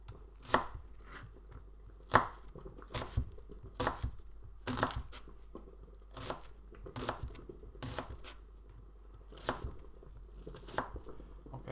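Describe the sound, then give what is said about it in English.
A knife chops through onions on a cutting board in a home kitchen. The cuts are many sharp, percussive knocks in a loose, uneven rhythm, with no talking. “Cutting these onions.”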